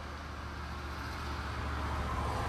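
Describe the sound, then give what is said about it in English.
A loud vehicle passing by makes a dense, steady roar of road noise that swells slightly louder toward the end, with no voices over it. “Sorry, just a loud vehicle went by.”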